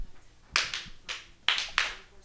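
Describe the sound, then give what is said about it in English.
A few scattered, uncoordinated claps come from an audience at an open mic night: sharp, separate smacks at uneven intervals, fairly faint, with no steady applause building up. “Now feel free to clap. Yes, okay. No. Take it. Okay, scattered claps.”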